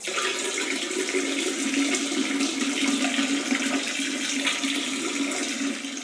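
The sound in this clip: A man urinating into the middle of toilet water makes a steady, continuous splashing stream that keeps an even loudness for the whole stretch, with no voices over it.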